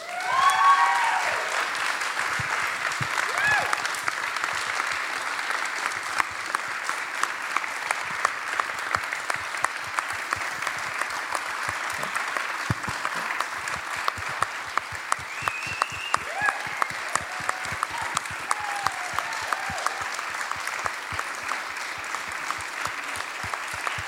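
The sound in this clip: Sustained audience applause welcomes guests at an evening live event: dense, steady clapping that holds at an even loudness for the full stretch, with no voices standing out.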